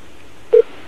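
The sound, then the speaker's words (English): A single short telephone keypad dialing tone sounds as a call is placed. The beep is steady, mid-pitched and very brief, over a faint background hiss. “Well, if it just picked up, she's dialing out.”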